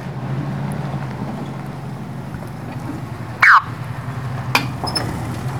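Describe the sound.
A pickup truck crosses a busted-up bridge over a ravine, its engine a steady low rumble throughout. Midway there is one loud, sharp clunk, followed by a couple of fainter knocks.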